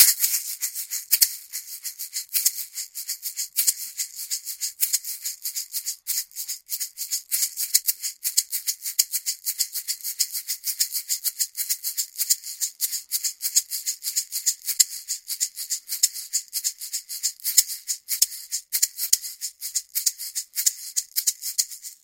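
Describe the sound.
An egg shaker is shaken in a steady, fast rhythm, giving a crisp, high rattling swish that repeats many times without pause throughout.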